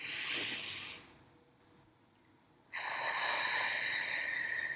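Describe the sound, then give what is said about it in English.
A deep breath drawn in through the nose during a guided breathing exercise: a long, steady, breathy hiss, then a short pause, then another sustained breathy rush of air. No one speaks. “take a deep breath with me here today. In through the nose.”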